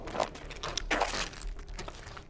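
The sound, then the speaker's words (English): Footsteps of people walking on through a dark, eerie place, a few soft crunching steps spaced unevenly over a low steady background, with no voices. “Let's keep walking. Yeah. Just keep walking.”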